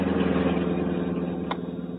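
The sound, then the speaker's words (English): A sleek black car driving past a city street corner on pavement, its engine a steady low rumble that holds throughout and eases slightly toward the end. “Meanwhile, a sleek black car hugged the pavement, past the corner of 10th and Cedar.”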